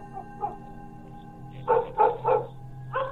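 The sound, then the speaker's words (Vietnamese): Dogs bark in a village at night: a few faint barks at first, then a run of louder, sharp barks in quick succession, with a last bark after a short pause. “Mấy con chó ở trong làng dường như cảm thấy điều gì đó, cứ chõ mõm ra ngoài đằng ấy mà cắn lên ông ổng đến sót cả ruột.”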